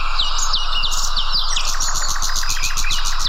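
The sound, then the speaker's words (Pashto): Birds chirping in gardens and villages: many bright, high tweets and trills overlap in a constant, lively chorus. The calls are loud and continuous throughout, with no pauses between them. “هلته یې په ځانګړي ډول د مرغانو ژغونو ته ورپام کېږي، خو داسې ښکاري چې دا اوازونه له طبیعته په کمېدو دي.”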